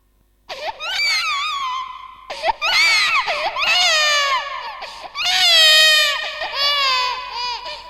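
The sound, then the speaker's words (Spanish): An infant cries loudly in a few long, wailing bursts separated by brief catches of breath, shrill and strained throughout, with no other voices. “No escuchan ese llanto.”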